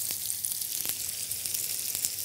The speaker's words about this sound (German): So, das lassen wir so ein bisschen brutzeln.